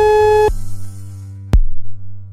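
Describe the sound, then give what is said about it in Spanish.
A telephone line tone after a call drops during a live radio phone-in: one steady, buzzy beep cuts off sharply, leaving a low hum and then a single sharp click. “Sí, Irune, habíamos perdido la comunicación con usted, se nos había caído la llamada.”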